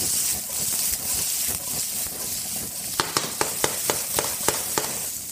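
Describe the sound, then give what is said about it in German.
Onions and bacon sizzle with potatoes in a pan, a continuous hiss of frying. In the second half a quick series of sharp, regular clicks cuts through, like a utensil striking the pan. “Und jetzt Zwiebeln und Speck dazu.”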